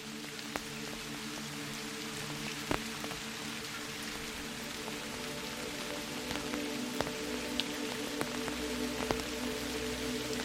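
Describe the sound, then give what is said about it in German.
Steady rain patters on an umbrella, a dense even hiss of drops with scattered louder individual taps standing out now and then. “Der Regen verstärkt sich allmählich zu einem stetigen Prasseln auf deinem Schirm.”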